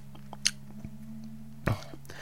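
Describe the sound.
Faint, crunchy chewing of salad, with a couple of sharper bites standing out from the quieter munching.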